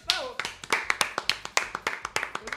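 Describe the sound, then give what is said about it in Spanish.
Applause as a rapid run of many sharp hand claps, crisp and fairly even in rhythm, filling the whole moment. “¡Un aplauso para mí!”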